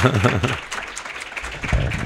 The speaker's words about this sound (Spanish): Vamos a dar un aplauso a Elena.